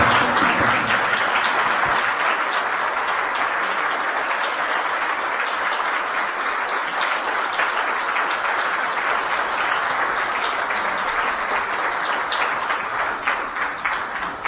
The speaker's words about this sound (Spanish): Un aplauso.